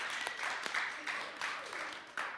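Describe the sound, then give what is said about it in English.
An audience claps during a church worship service, a dense, steady wash of many hands that keeps going without pause for the whole stretch, with a few sharper claps standing out. “Clap. Go clap. Just clap for Jesus. Give Jesus a clap.”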